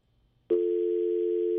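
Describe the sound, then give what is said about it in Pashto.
A telephone dial tone sounds after a call is cut off, breaking in abruptly after near silence and holding as one steady, unbroken tone to the end. “تلیفون قطع سوی دی”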